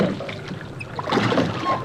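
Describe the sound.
Soft watery splashing and creaking of a small boat coming ashore: brief and low, with the noise swelling louder in the second half.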